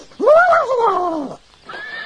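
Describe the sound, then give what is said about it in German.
A horse whinnies in reply to another horse's neigh: one loud, shaky call that wavers and trails downward for just over a second. After a short pause, a second, fainter call begins. “Sie antwortet auf ihr Wiehern.”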